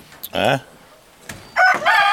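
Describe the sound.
A rooster crows in two loud, harmonic calls separated by a pause of near silence, the first shorter, the second longer and sustained.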